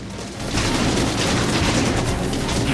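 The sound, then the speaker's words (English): Film gunfire as attackers riding in a 4x4 strafe dry, dusty ground with bullets, a dense, continuous barrage of shots that swells in after a brief quieter start and stays loud. “More attackers riding in a 4x4 strafe the dry, dusty ground in front of Beckett with bullets as he runs.”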